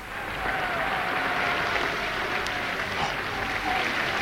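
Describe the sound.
An audience applauds a performer with sustained, dense clapping that holds at a steady, fairly loud level throughout.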